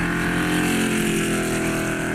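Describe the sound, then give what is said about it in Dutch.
A straight-eight inline car engine from a hill-climb car rated at 310 horsepower runs in a steady, full-bodied hum with a continuous rich drone and no talk over it. “Nou, luister even hoe dat klinkt. Dat klinkt gewoon goed. Het is een 8-in-lijn cilindermotor.”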